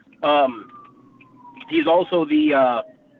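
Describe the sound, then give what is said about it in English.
An ambulance siren passes, its faint wail sliding slowly downward beneath a man's talking, which covers most of it. “You know, I guess there's a ambulance going by. I apologize.”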